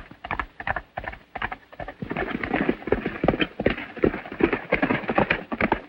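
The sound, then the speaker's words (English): Horse hooves gallop through a grove of trees: many quick, rhythmic hoofbeats in a steady driving pattern. They grow denser and louder after the first couple of seconds. “Outside, Ruby gallops through a grove of trees.”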